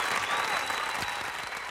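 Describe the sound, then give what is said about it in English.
Audience applause for a contest winner bound for Spruce Meadows: continuous, fairly loud clapping that holds steady, then eases slightly toward the end. “Round of applause for Greg.”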